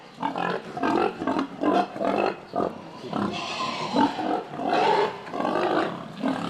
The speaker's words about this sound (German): Der Eber ist ein Anfänger und etwas ungestüm.